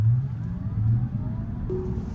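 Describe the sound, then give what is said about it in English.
A Cybertruck slowing down under full self-driving: a low rumble of road and drivetrain noise with a faint electric whine, then a brief steady tone near the end. No voices are heard. “That sounds like a slowdown to me. It's making that Millennium Falcon like slowdown sound.”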